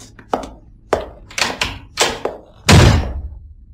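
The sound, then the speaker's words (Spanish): A door is slammed shut: several lighter knocks and thumps come first, then one heavy, loud bang near the end. “Maldita sea. Me ha dado con la puerta en las narices.”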